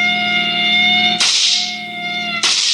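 Two sharp gunshot cracks fired during a police car chase, each a sudden bright burst that decays quickly, over a loud, steady siren wail.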